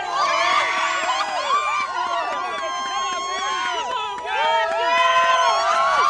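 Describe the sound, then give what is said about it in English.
A crowd screams, whoops and shouts at a space shuttle launch, watching from a press site about three miles from the pad. Many excited voices overlap, loud and continuous throughout. “We were just screaming and shouting as she started to go”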